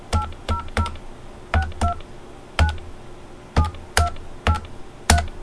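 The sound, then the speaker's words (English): Ten short two-tone beeps sound as a number is dialed on a telephone keypad, in uneven bursts with small pauses between groups, over a faint steady background hum. “Is that the one you just did the DTMF on?”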